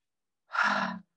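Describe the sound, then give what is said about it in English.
A person takes one deep breath: a soft, breathy rush lasting about half a second, heard alone against silence. “So take a deep breath.”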